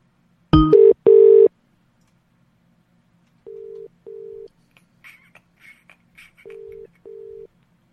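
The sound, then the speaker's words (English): A telephone placing an outgoing call: a sharp click and burst, then three pairs of steady mid-pitched ringback tones separated by pauses, with faint scattered clicks between them. “We missed a phone call there, so I'm just going to call this person back.”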